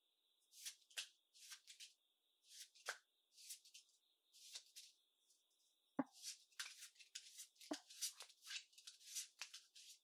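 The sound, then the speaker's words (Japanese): A deck of cards being shuffled for a card trick: many short, papery riffling bursts in an uneven rhythm, with a faint steady tone underneath. “まずはカードを切るから途中でストップって言ってね。”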